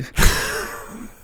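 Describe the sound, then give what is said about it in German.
A single yawn from a man who has been awake for nineteen hours: a sudden breathy onset that stretches into a long, drawn-out voiced tone, slowly fading. “Da gähnt er mich hier an, das gibt's doch gar nicht.”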